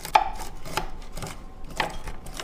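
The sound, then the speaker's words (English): A knife chops peanuts in a few crisp, uneven taps, with dull knocks between the sharper strikes. “And I need to melt some butter, and we're going to toast some sesame seeds and chop some peanuts.”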